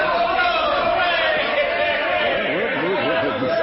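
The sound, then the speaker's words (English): Crowd gathered at a train platform in a radio drama, many overlapping voices chattering and calling out at a steady, busy level. “Slim, what's going on here? What's this crowd for? It's for you, Uncle Joe. They came down to greet you.”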